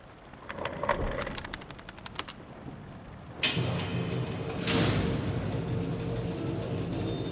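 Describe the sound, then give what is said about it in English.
Window shutters are opened on a rainy day: a burst of rapid rattling clicks, then two abrupt, loud surges of broad rushing noise a moment apart, the noise holding steady afterward. “Well, open the shutters. Let's take a look at it.”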